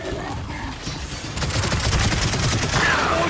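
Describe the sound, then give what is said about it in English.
Rapid gunfire fills a co-op shooter video game campaign, a dense rattle of shots and mechanical clatter that grows louder and more insistent partway through. “I just started shooting everybody.”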